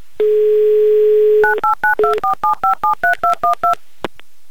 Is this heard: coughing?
no